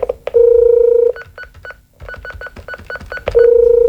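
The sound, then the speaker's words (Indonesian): A telephone number is dialed on a keypad: a long beep, then a rapid run of many short key tones, then another sustained tone. “Elok saya panggil dulu si Mia lewat telefon meh.”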